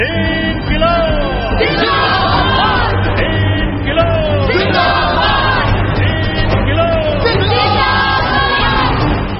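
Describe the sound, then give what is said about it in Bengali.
A frenzied crowd roars and yells, with many overlapping shouting voices forming a continuous, loud, dense wall of sound that holds steady throughout. “কিন্তু সেই আওয়াজকে ছাপিয়ে গেল উন্মত্ত জনতার মধ্যে থেকে ঝাঁপিয়ে আসা হুঙ্কার,”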